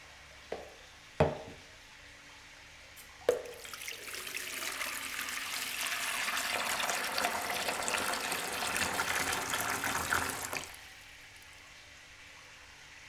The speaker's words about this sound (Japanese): それじゃあまずお湯をかけていきますね。はい、お背中お流しします。